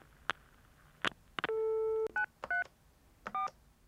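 Telephone keypad tones as a number is dialed to reach a smuggler. A few short electronic beeps of differing pitch are followed by one longer held tone, then several more brief two-note beeps. All are fairly faint and clean, with no talk.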